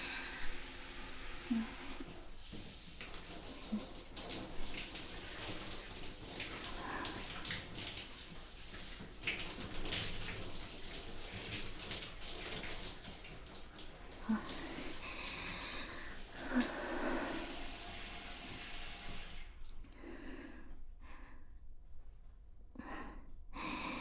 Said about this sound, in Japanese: 流しますね。